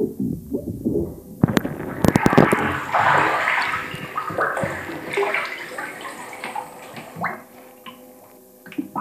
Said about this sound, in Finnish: homman loppu, että mikki ui vedessä